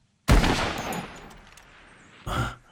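A hunting rifle fires one loud shot with a long, fading tail. A shorter, weaker burst follows about two seconds later.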